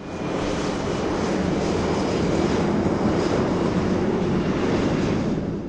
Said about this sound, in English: That's the sound of a plane flying over South Portland